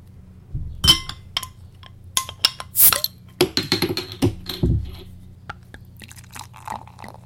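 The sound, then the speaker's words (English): A beer bottle being opened and poured: a quick run of sharp glassy clinks, clicks and crackles at irregular intervals, with a few heavier bursts mixed in. “So let's crack open the bottle and see if it's any better.”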